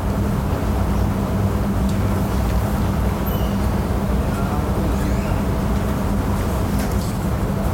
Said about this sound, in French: So we are hearing the air conditioning unit and the rustling of paper and distant sounds, which would indicate the size of the room being recorded. So this is clearly an open space.